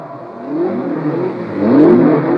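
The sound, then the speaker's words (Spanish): Race car engines rev as the cars warm up before a Grand Prix race, a continuous mid-pitched buzzing roar that swells louder and rises in pitch toward the end. “En este momento todos los autos calientan motores.”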